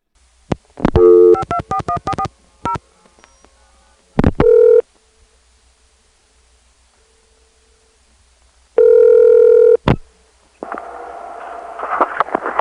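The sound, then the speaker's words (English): Telephone calls placed in 1982 to analog answering machines on Atlanta's Jackson 4 exchange: rapid bursts of touch-tone dialing, brief tones, a long held tone, then a noisy line signal at the end. “Here's the continuation of the answering machines we found in January 1982 in Atlanta's Jackson 4 exchange. Every one of these answering machines is entirely analog, and there is no voicemail yet.”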